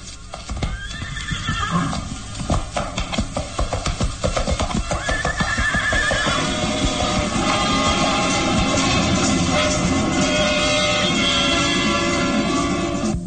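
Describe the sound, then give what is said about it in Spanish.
Horses neigh and snort over a steady, loud clip-clop of hooves as two riders move off at a slow walk into fog. A few shrill whinnies stand out above the continuous hoofbeats, with no voices. “Calimán monta y en compañía del pequeño Solín se aleja al paso lento de sus cabalgaduras hasta perderse entre la niebla.”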